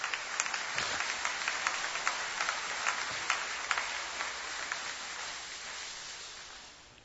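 A church audience applauding, a steady patter of many hands clapping at moderate volume that slowly fades toward the end.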